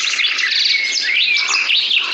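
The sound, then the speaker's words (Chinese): Birds chirping in a mountain forest: many overlapping high chirps and whistles run continuously at a steady, fairly loud level, with no talk. “十几年时间过去，大山又恢复了勃勃生机，森林生态越来越好了，鸟也越来越多了”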